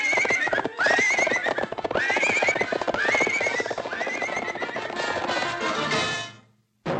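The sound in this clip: Horse whinnies rise and fall several times over the steady clip-clop of hooves as a rider leads the horse toward the stable, from a 1941 animated short. The sound stays loud and busy, then drops briefly near the end.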